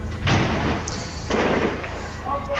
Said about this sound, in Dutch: Terwijl ik tegen je praat, slaat hier een hele zware bom in. Ik weet niet precies waar het is, maar je kunt het, neem ik aan, duidelijk horen.